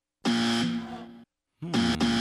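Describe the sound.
A game show buzzer sounds in a quiz round: two loud, harsh, steady buzzes with a low droning pitch. The first lasts about a second, and the second starts after a short pause and runs to the end.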